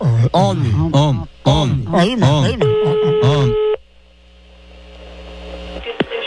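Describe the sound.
A telephone call is placed, with a steady electronic ringing tone sounding under talking voices for about a second, followed by a low hum and a faint click.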